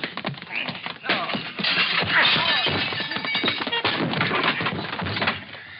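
Heavy thuds and whacks of blows hitting a man in a radio-drama fight, mixed with cracking, splintering impacts; many hits land in quick, uneven succession through a loud, busy stretch.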